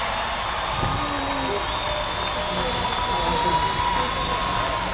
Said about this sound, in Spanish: Un aplauso. Muchísimas gracias.